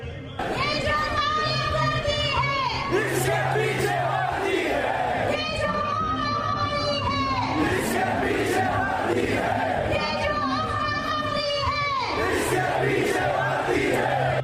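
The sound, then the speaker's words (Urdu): A large crowd chants slogans in unison at a Pashtun nationalist rally held by Manzoor Pashteen's movement with nationalist parties; loud, massed voices repeat the same call-like phrase in several waves over a steady crowd roar. “جلسے کے شرکا یہ نعرے لگاتے رہے۔”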